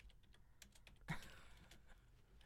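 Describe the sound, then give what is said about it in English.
Typing on a computer keyboard: soft, irregular keystrokes in an uneven patter, with one slightly louder clack near the middle, all very faint. “He's going to type it for us because we got short-term memory.”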